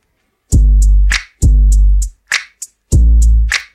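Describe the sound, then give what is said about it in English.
Crisp finger snaps are layered into a pop hip-hop beat whose booming kick also serves as a bass note. The snaps crack in a steady, loud rhythm around the deep low hits, with no voices. “And then he added some snaps as well.”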